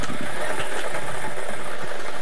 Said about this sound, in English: Well, $1 million is waiting to make its way to you tonight. We're playing our Daily Millions game from Monday, the 22nd of June, 2026. Let's get these balls spinning.